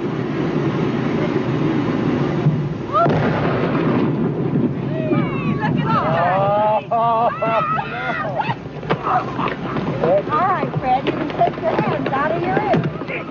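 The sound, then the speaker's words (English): Chunks of rotten whale blubber rain down on spectators after a dynamite blast on a whale carcass by the sea. A heavy, continuous rumbling roar is joined by patters and excited shouting voices. “What you're hearing are the chunks of rotten whale blubber raining down on the spectators.”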